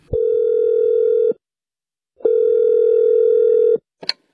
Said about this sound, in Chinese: 我呀给装修公司打一电话问问。